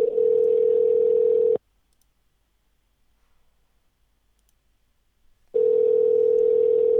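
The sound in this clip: Telephone dial tone heard while calling someone back: a steady, unbroken single tone that cuts off into silence for about four seconds, then returns unchanged.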